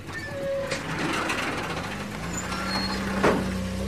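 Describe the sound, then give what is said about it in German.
A vehicle engine rumbles low and steady as it rolls toward a gate on a transport company's lot, faint throughout, with a brief burst of noise near the end. “Auf dem Grundstück der Transportfirma sprang ein Motor an und ein Wagen rollte auf das Tor zu.”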